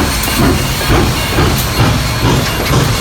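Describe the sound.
A steam train departs, with a broad, steady hiss of steam over a regular series of low chuffing pulses that repeat about every half second. The sound is loud and continuous, and no voices are heard.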